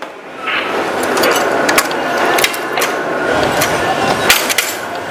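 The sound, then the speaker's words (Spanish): Railway switch points being changed, heard as a mechanical ratcheting clatter of many sharp clicks and knocks over a steady, noisy background. “Aún debo esperar a que cambien la aguja, ¿verdad?”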